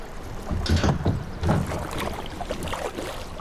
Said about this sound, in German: Wir sind bei der Gantbeinsmühlen und haben gerade den Kajak bis auf den Ponton gedrungen, direkt über der Ölzücht.